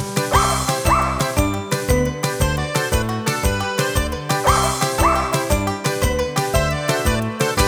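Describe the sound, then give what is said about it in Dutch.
Dog barks set in tune and in time to a bouncy children's song, with loud, rhythmic yips and woofs repeating in a steady pattern over the music. “een hond. Die is muzikaal, je staat verstomd. Hij blaft op toon en in de maat. Luister maar hoe dat gaat.”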